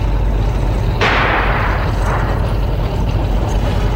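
An anti-tank rifle fires once in a wartime radio drama, a sharp, loud blast that fades into a hissing tail over a steady low rumble of battle noise.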